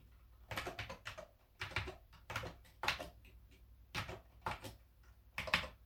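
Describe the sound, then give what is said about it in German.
Keystrokes from someone typing a password on a computer keyboard, heard alone as quick, light clicks in several short bursts with brief pauses between them, fairly faint overall. “Da tippe ich das Passwort ein.”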